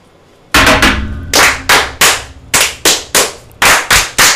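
Sharp, loud claps struck in unison by Masonic brethren during a ritual fire. They come in several quick bursts of strong, ringing hits, with short pauses between the groups.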